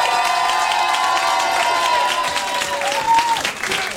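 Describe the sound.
Concert crowd cheering, shouting and applauding, a loud dense roar of claps and voices that holds steady throughout, with a few shrill whistle-like cries rising above it.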